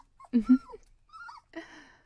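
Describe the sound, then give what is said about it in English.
Corgi dog whimpering: a few soft, high-pitched whines and short yelps in close bursts, followed by a fainter whine, with no talking. “that corgi is so adorable. Look at his ears. The way one is up and one is down.”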